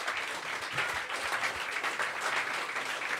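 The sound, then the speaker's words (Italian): An audience applauds the musicians at the close of a show. Many hands clap in a full, continuous burst that stays fairly steady, with small swells, and no one speaks. “Un applauso ai musicisti di Bruce.”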